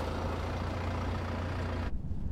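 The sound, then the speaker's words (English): Low, steady rumble of a vehicle engine as it pulls up at the curb, fairly loud and even throughout. The brighter road noise cuts out abruptly near the end while the deep drone continues. “A vehicle approaches. It slows and stops at the curb in front of her.”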